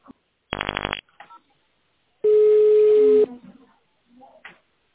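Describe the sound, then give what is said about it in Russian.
Telephone keypad dialing tones, a short burst of electronic beeps followed by a longer steady tone of about a second, with faint scattered sounds between them. “Наберите номер внутреннего абонента или нажмите 0 для соединения с оператором.”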